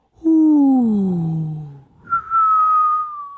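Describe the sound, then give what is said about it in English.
A voice imitating wind whistling through a forest: a breathy whistle glides slowly downward, then after a brief break holds a higher, steady tone, alone. “That was my best wind whistling forest noises. Yeah, for real. That's what it sounds like.”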